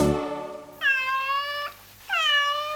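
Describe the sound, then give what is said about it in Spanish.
A cat meows twice. Each meow is a clear, drawn-out, fairly loud cry, and the second is cut short at the end. A brief, quieter sound comes before them. “¿Qué es? El gato que maulló.”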